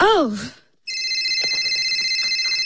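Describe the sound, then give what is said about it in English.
A telephone rings with a steady electronic warble, two bright tones pulsing rapidly and continuously for about two seconds, after a brief voice and a short silence. “I think your phone is ringing.”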